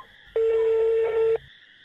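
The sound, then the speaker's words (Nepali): A single telephone tone sounds as a call back is placed, a loud, steady, even tone lasting about one second over a faint constant high whine. “एकचोटि call back गर्नु पऱ्यो।”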